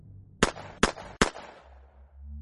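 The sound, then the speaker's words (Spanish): Three gunshots ring out in a dark room during a thunderstorm as sharp, evenly spaced cracks, each with a short decaying tail. A low rumble lingers afterward. “Luego disparé 3 tiros antes de que se apagara el último parpadeo.”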